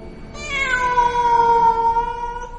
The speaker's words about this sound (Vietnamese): kêu lên ngao một tiếng như mèo kêu